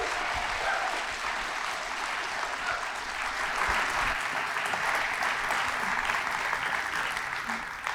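Audience applause welcoming a comedian to the stage at a church gathering, a dense, even wash of clapping that continues without a break for the whole stretch.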